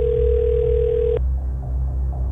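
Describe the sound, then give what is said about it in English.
A steady telephone dial tone as a call is dialed, holding one even pitch for about a second before cutting off and leaving a low background hum. “I've hit dial.”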